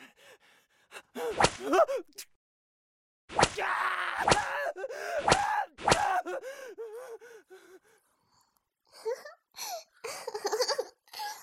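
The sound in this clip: Several sharp whip lashes crack against a prisoner during a beating, interleaved with pained gasps and groans. After a short pause, strained vocal groaning continues without the cracks.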